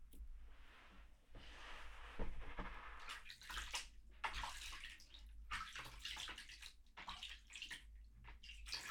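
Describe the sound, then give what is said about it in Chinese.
Water being poured to rinse hair during a bath, a soft, continuous splashing and trickling stream with occasional gurgles, faint and unbroken, with no talk. “你的头稍微弯一点，我要给你冲水了。闭上眼睛。”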